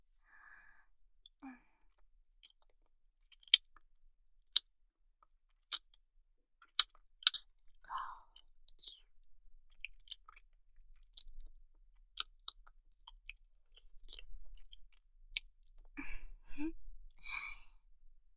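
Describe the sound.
Wet kissing mouth sounds, a quiet run of soft smacks and sharp little clicks with gentle breathing and sighs between them, growing busier and denser toward the end.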